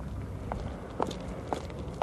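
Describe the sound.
Footsteps of people crossing a street as stopped cars wait, four even, steady steps at a regular walking pace over a low background rumble.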